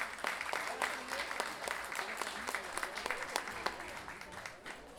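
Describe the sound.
Audience applause at a national large-guitar festival, greeting a singer and guitarrón player: many scattered hand claps that crest early and then taper unevenly, with faint voices mixed in beneath the clapping.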